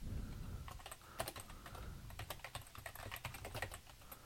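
Keyboard typing on a computer while card payment details go into a form, with many quick, light clacks in uneven bursts, faint and without voices.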